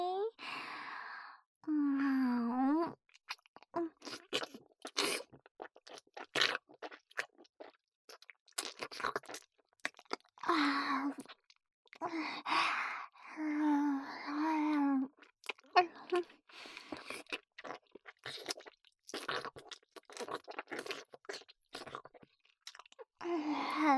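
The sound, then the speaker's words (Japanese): Wet licking mouth sounds, many small smacking and slurping clicks in an uneven rhythm, broken up by breathy sighs and soft moans close to the ear. “では、隅々まで舐め上げていきますね。”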